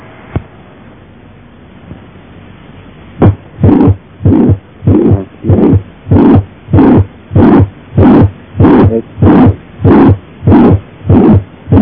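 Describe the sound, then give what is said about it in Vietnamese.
Heartbeat with a systolic regurgitant murmur from tricuspid valve regurgitation, loudest near the left lower sternal border and stronger on inspiration: a steady run of many loud, evenly spaced whooshing beats after a quiet start with a single click. “Trong hở van ba lá, ta cũng nghe thấy tiếng thổi tâm thu phụt ngược, nhưng nghe rõ nhất ở trong mỏm, sát bờ trái mũi ức, mạnh lên khi hít vào.”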